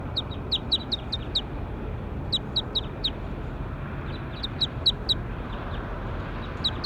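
High-pitched bird calls: quick, sharp chirps that come in several rapid bursts of a few notes each, separated by short pauses, over a low steady background hiss.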